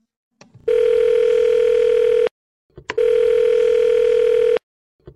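Phone ringback tone heard while calling a guest: two long, steady buzzing rings, each about one and a half seconds, separated by a short silent pause.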